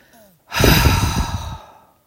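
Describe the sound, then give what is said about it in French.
A single slow, deep exhale with a rough, guttural rasp, breathed out gently into the pelvis for relaxation. It swells quickly, holds for about a second and fades, loud and alone. “Inspire en comptant 1, 2, 3, 4, 5, et souffle doucement dans ton bassin en émettant un râle guttural.”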